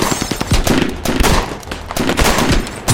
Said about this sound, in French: six hommes de Frank Heimer se mettent à tirer tous ensemble. Ils vident leur chargeur, rechargent et tirent à nouveau.